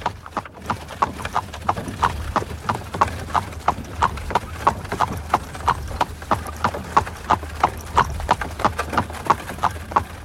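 Hooves clip-clop as a horse-drawn carriage sets off with the coachman urging the horse on, giving many crisp, evenly spaced beats in a steady trotting rhythm that runs through the whole stretch.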